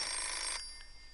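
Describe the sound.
A telephone rings with a single steady, high electronic tone that cuts off after about half a second, leaving quiet.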